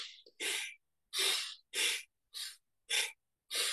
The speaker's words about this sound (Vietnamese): Bước thứ hai là hít vô mạnh biết hít vô mạnh, thở ra mạnh biết thở ra mạnh, mạnh á.